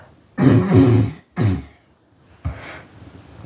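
Throat clearing from a man, heard as a few rough, raspy bursts: a long, loud first rasp, a shorter second one, then a weaker, breathier final clear, each separated by brief silence.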